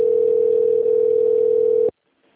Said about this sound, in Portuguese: Ok, vou transferir sua ligação para um atendente. Aguarde.